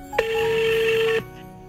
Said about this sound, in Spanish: Mientras intentamos la llamada